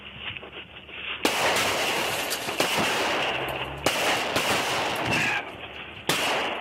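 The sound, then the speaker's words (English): Gunshots fired from a vehicle at a sheriff's deputy during a traffic stop: several loud, harsh, distorted blasts, each hitting with a sharp onset and followed by continuous rough noise. “leaning out of his vehicle and firing shots at the deputy. Shots fired”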